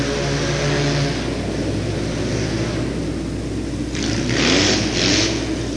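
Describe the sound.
Big racing motorcycle engines, including a Triumph, roar continuously on a clean-out lap at a race, a loud, sustained drone that surges briefly near the end.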